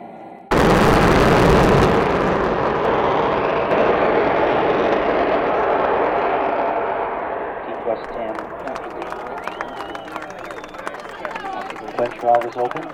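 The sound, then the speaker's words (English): A launch abort motor of about 400,000 pounds of thrust fires off a rocket: a sudden loud roaring blast, sustained for several seconds, then fading into quieter scattered crackles. “the launch abort system is activated within milliseconds, igniting the boosters in the abort module and pulling the crew capsule off and away from the rocket.”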